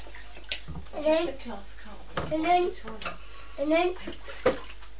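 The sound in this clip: Bath water sloshing and splashing over the side of a tub, with a few brief splashy bursts. An adult and a child talk throughout.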